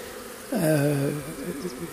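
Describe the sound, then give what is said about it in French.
Bees buzz in front of a beehive as many of them come and go, some carrying pollen. A loud droning hum swells up suddenly as one flies close, then eases into a steadier, fainter buzz. “il y a une grande quantité d'abeilles qui est devant la ruche, qui va et qui vient, qui sort de la ruche, qui rentre, qui rapporte du pollen.”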